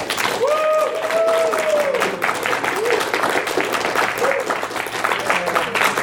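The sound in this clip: An audience applauds a contestant while an applause meter measures the response: continuous clapping and crowd noise run for about six seconds, and a voice rises over the clapping near the start.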